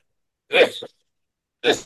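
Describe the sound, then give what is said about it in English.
Two short coughs from a person speaking at a meeting, each a brief rough burst, separated by a silent pause of about a second. “Pardon another cough.”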